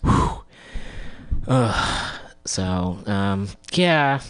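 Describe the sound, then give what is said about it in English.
A deep breath drawn in and let out, with a long, airy inhale followed by voiced, sighing exhalations that carry a clear tone. “taking a deep breath in and out.”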